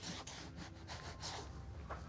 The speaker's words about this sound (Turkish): Sonra da kuru bir bezle burayı silelim.